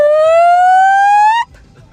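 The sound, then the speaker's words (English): A fire alarm sounds as a single loud electronic siren tone that climbs slowly in pitch for about a second and a half, then cuts off abruptly. “Oh, no, that's a fire alarm.”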